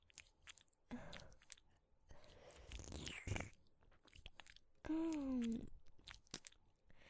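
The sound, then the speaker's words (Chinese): ASMR tongue licking deep inside an ear: soft, wet smacks and slurping mouth sounds, faint and close, with a short voiced hum partway through. “像这样用舌头深深地探入弟弟的耳朵里面，”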